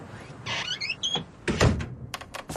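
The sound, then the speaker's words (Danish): An old door, long unopened and with a hinge in need of oil, creaks open in short squeaky tonal whines, then lands with a dull thud followed by a few sharp clacks. “det er en gammel. Det er lang tid siden, den dør har været åbnet”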